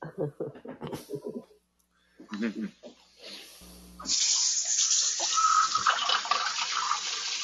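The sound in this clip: Tap water gushes into a kitchen sink in a strong, steady, hissing stream for the last few seconds, after an opening stretch of people talking.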